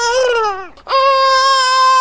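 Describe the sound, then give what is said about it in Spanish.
A child crying in two long, loud wails separated by a brief catch of breath. The first cry slides downward in pitch, and the second holds steady and strained. “El llanto de un chico conmueve y despierta sentimientos encontrados.”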